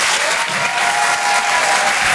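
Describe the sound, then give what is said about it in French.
Loud, dense applause and crowd noise greet a comedian taking the stage at a Paris comedy club, a steady roar of many hands that runs unbroken throughout. “Faites du bruit s'il vous plaît pour Laurent Barra.”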